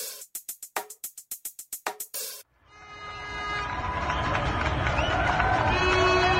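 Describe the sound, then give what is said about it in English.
Paris residents at their windows and on balconies cheer for medical workers: a quick run of sharp, rhythmic bursts gives way to a dense, swelling wash of crowd noise that builds and stays loud to the end. “That's the sound of residents in Paris last night, as people went to their windows and out on their balconies to voice their appreciation for medical workers”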